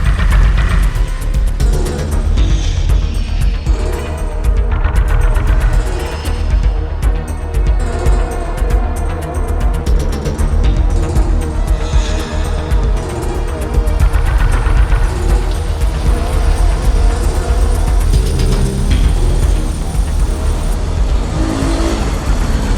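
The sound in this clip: A motorcycle engine drones steadily while being ridden. The sound is loud and continuous for the whole stretch, with slight surges in intensity and no voices.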